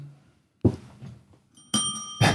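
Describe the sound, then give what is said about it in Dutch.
A small push bell pressed once, giving a bright, short ring with lingering metallic overtones, set between soft knocking thuds; the ring stands out clearly and fairly loud against otherwise quiet surroundings. “Er wordt op het belletje gedrukt. Nee, even testen of je het doet.”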